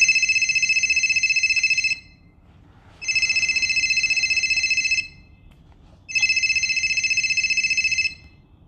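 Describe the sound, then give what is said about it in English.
A telephone rings three times while a waiting caller is being dialled. Each ring is a long, steady, high electronic burst of about two seconds, with short silent gaps between them. “We have our third caller waiting for us online. Let's start calling him.”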